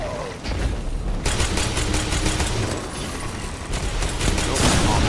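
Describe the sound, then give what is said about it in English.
Shotgun blasts in a Destiny 2 Crucible match: a few sharp, booming shots over continuous loud gunfire and game noise. “Shotgun to the face.”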